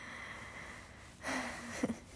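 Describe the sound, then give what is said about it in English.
Quiet breathing: one soft, drawn-out breath, followed by a short, sharp snort-like sniff. “I'm just breathing. I'm sorry. Do you want me to not breathe?”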